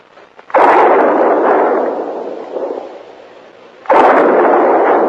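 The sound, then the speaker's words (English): Two loud gunshots are fired as a signal for help near a herd of buffalo. Each shot is a sharp blast followed by a long, rumbling tail, with a few seconds of quieter decay between them. “Hey, what in the world is he shooting at now?”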